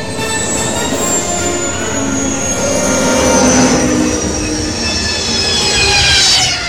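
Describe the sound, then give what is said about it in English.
An escape pod descending and landing gives a loud, continuous whining roar with high, squealing tones that slide slowly in pitch over a steady rumble, swelling slightly toward the end, with no voices. “I'm going to be taking you guys all down in the Escape Pod to Nar Shaddaa.”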